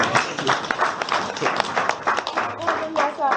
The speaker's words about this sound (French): Applaudissons pour le Seigneur.